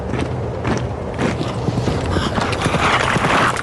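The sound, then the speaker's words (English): A horse gallops on a midnight ride ahead of troops, its hooves drumming in rapid, steady beats. The hoofbeats blend into a continuous rough, noisy rumble at a fairly even level. “His midnight ride will alert local militias. Revere rides ahead of the British troops.”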